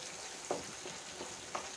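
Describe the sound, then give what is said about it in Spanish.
Onion frying in a pan, a soft, steady, hissing sizzle that runs throughout, broken by a couple of brief clicks, faint and without talk. “Estamos a punto de terminar la cebolla. Cacha, todo el rato que he estado haciendo la cebolla frita.”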